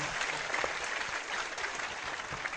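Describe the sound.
Applause from an audience: a steady, dense patter of many hands clapping, continuous and fairly faint throughout.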